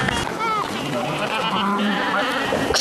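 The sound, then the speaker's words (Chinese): Sheep bleating while being herded, with a few wavering, nasal cries rising over a steady, noisy background and voices at times. “赶羊也是我生活当中练力量的一种方式。”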